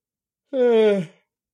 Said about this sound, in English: that was a yawn and a getting some water all in one go